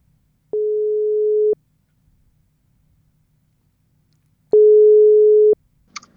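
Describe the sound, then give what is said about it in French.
Two ringback tones sound as a telephone call is placed to someone aboard a boat in a flotilla. Each is a steady, mid-pitched tone of about one second, separated by roughly three seconds of silence, followed by a short click. “Sadi Choua, qui est sur un des bateaux et qu'on va essayer d'appeler maintenant”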